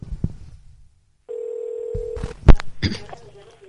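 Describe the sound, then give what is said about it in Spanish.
A steady telephone tone sounds for about a second as a prank call is placed. A few clicks and bumps follow. “Ya estamos llamando.”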